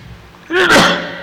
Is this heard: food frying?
no